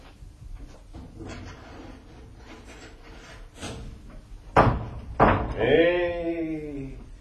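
A door being unlocked and opened: two heavy clunks in quick succession, then a long, tonal creak as the door swings, over a low steady background rumble.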